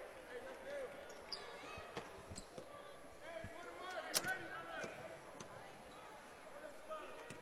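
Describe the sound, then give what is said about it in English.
A basketball is bounced a few times before a free throw in a boys' high school game, its dull thuds under a commentator's steady talk. “Dribbles it three times, unloads.”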